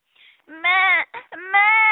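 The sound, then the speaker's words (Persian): A human voice imitates a goat kid bleating and crying. It gives a few loud, wavering, high-pitched wails separated by short breaks, with nothing else heard. “ترسید و معمع کرد و گریه کرد.”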